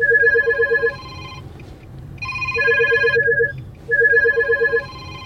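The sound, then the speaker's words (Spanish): Mobile phone ringtone for an incoming call, heard in a car while the driver heads to a ride-hailing pickup. A bright, repeating electronic melody plays in three loud bursts with short gaps between them. No one talks. “Dejemos pasar esa llamada.”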